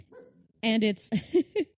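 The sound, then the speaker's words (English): A small pet dog barks in a few short, sharp, high yips, loud against an otherwise quiet background. “your dog is on my lap and, he is adorable.”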